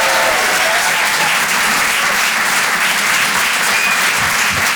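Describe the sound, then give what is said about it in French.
Applause from a comedy club audience at the Rire et Chansons Comedy Club, a dense, steady wash of clapping that holds at full strength for the whole stretch without a break. “Faites du bruit, s'il vous plaît, pour Nikos sur les chansons.”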